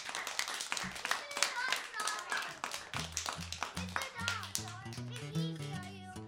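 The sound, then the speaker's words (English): Clapping from an audience at a children's Christmas sing-along, quick overlapping claps in the opening seconds, then music with a steady bass line takes over while voices continue throughout. “Clap for yourselves. That was awesome.”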